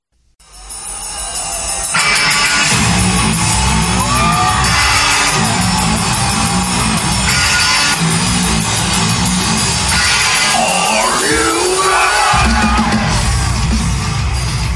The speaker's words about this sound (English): Welcome to Lollapalooza 2025, a four-day music festival in downtown Chicago.